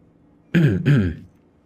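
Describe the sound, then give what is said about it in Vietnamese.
A man awkwardly clears his throat in two quick, rough bursts, loud and alone with no talk around it. “Hắn nhìn tay mình bị Đoạn Đào nắm chặt, bối rối hắng giọng rồi rút tay trở về.”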